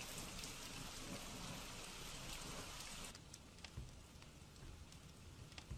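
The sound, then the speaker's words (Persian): Heavy rain pours through a house roof into the rooms in a cartoon, a loud, dense, continuous hiss of falling water that thins slightly partway through. “ئەمە ستەمە بارانێکی زۆر لە سەربانەکە دێتە ژوورەوە هەروەها شوێنێک نیە لەناو خانووەکە لێی دانیشین هیوادارم بارانەکە بوەستێ”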